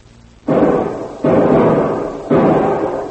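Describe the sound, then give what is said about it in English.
Three loud rifle shots ring out, each a sharp blast followed by a long, decaying rumble. The shots come roughly a second apart, with nothing else heard between them. “Use that rifle”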